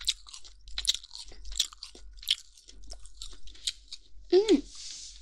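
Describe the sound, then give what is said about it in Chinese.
Crunchy chewing of crisp, chewy skin, with many close, sharp bites and crunches in an irregular rhythm and a brief vocal sound near the end. “这个皮也很脆，很有嚼劲呢。”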